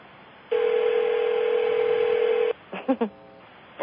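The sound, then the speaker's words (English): A phone-line tone sounds as conference callers are unmuted: one steady, loud tone holds for about two seconds, stops abruptly, and is followed by a few brief voice sounds. “Hang on, I'm going to open up the line. All callers are unmuted.”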